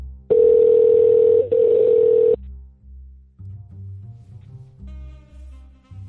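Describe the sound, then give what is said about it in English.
A telephone dial tone hums steadily for about two seconds with a brief break partway, followed by a few low, muffled pulses as the call is placed, with no voices. “I'm going to go ahead and give this bitch a call.”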